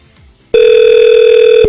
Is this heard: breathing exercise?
no